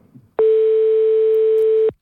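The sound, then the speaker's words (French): Ringback tone of an outgoing telephone call: one steady mid-pitched tone with faint buzzy overtones. It holds for about one and a half seconds and plays alone, with no voices. “On appelle, c'est parti. On appelle des gens.”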